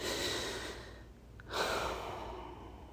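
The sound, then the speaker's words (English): A long, deep breath taken during a guided meditation, soft and airy with no voice, two broad swells of breath noise separated by a brief pause. “Let's take another long, deep breath.”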